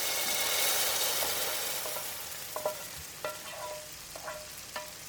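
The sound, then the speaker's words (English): Onions, garlic, red chilli and fenugreek seeds sizzle in a pan as they fry to near caramelisation: a broad, steady hiss that eases slightly, then a few sharp crackles and pops in the second half. “Now we've kind of almost caramelised our onions, garlic, red chilli and fenugreek seeds.”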